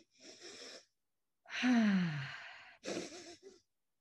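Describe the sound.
Breath-work exercise breathing, a few audible breaths with one longer, louder sighing breath whose tone drops, heard alone without talk.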